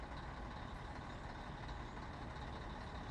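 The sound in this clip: A bus engine starts up and settles into a low, steady rumble with a broad hiss layered over it, faint overall and unchanging throughout.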